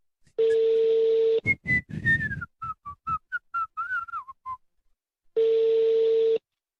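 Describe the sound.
Ringback tone of a telephone call going unanswered: two long, steady, even-pitched rings, one at the start and one at the end, with a lively whistled melody in between.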